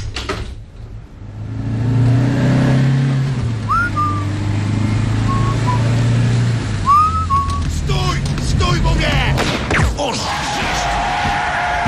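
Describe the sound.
A car driving off, its engine droning low and stepping up in pitch as it pulls away, with a few brief whistle-like tones over it and some clattering near the end.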